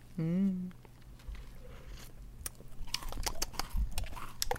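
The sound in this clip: People eating ice cream together: a short voiced hum opens, then soft mouth sounds build into many quick wet clicks and smacks of chewing and tasting, with faint low movement noise underneath.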